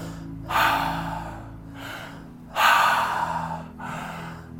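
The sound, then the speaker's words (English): Three deep breaths through the mouth during a Reiki-style ritual, each a long breathy rush of air with quiet pauses between, over a soft steady hum. “And we take 3 deep breaths through the mouth.”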